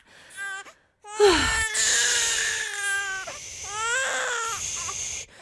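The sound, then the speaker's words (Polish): An infant niece cries: a short wail, a brief pause, then loud, continuous, high-pitched wailing with strong harmonic tones that waver and dip. No one speaks. “Moja bratanica bez przerwy płacze, kiedy jest ze mną.”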